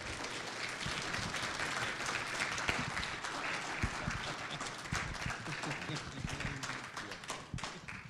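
Applause from a church audience welcoming their pastor: dense, steady clapping that holds at an even level throughout, with no talk over it.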